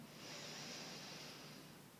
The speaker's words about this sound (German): Und dann atme einmal durch die Nase ganz tief ein